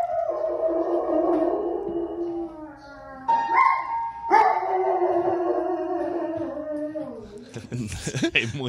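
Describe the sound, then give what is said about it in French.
A dog howls and yowls as if singing along to piano, sustained wavering tones that shift in pitch from phrase to phrase, ending in a noisier, more ragged burst. “Un chien qui joue du piano, est-ce que ça t'intéresserait d'entendre ça?”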